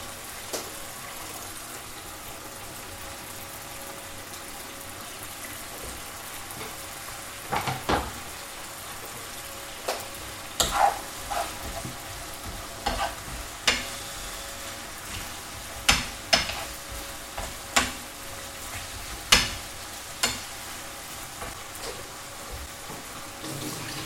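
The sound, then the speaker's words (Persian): Onions fry in a pan with a steady, soft sizzle broken by many sharp crackles and pops that grow busier partway through. “پیازش را اضافه میکنم بهش.”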